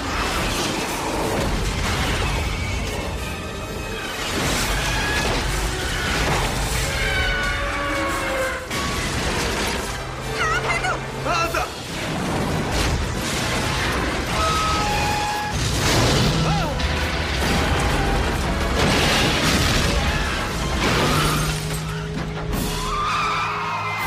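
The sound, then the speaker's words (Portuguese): Missile launches and explosions during a military strike on a moving target: a dense, continuous roar of blasts, bursts and mechanical rumble that fills the whole clip without clear pauses. “Alvo travado. Atirar. Dois lançados.”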